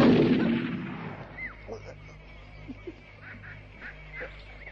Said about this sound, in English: The German found a bullet, pressed it into the breech, and fired.